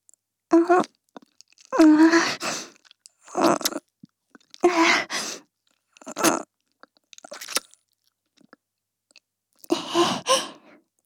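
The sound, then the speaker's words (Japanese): Wet mouth-licking sounds in the ear, a morning ASMR lick: several separate moist, slurping bursts spaced by short silences, soft and intimate, with no speech. “朝のペロペロだよ。”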